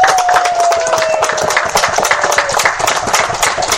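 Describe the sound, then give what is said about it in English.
Audience applause at a game event after an exciting second round, dense and steady clapping throughout with a thin whistle-like tone gliding slightly downward at the start. “So I'll give everybody a round of”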